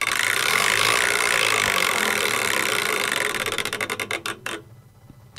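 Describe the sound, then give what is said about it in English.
A prize wheel being spun: a fast whirring clatter that breaks into many distinct ticks, spaced ever wider as the wheel slows, then stops with a last faint click. “All right, time for a wheel spin. Over we go. Where shall we land today?”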